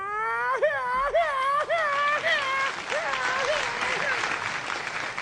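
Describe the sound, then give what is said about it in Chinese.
Audience applause at a Spring Festival gala comedy performance, a dense, steady clatter of clapping that swells gradually. A series of warbling, bird-like calls rises above it, likely a voice imitating a bird. “您别鼓掌了”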